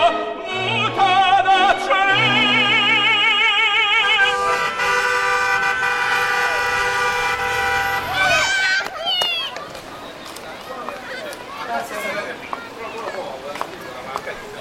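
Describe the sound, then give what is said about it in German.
Street traffic in Rome drifting in through a window: car horns toot and engines pass after a stretch of music, with a voice speaking over part of it. “Die Sonne scheint, durch das Fenster dringt der Klang der Straße und der Espresso duftet.”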